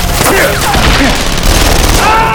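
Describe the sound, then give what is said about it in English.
A loud, crashing burst from a machine gun exploding in its chamber, an audio drama battle effect. Dense continuous blasts and booms come with whistling tones that sweep downward through the din. “The machine gun exploded in the chamber, blowing apart and into a black shirt.”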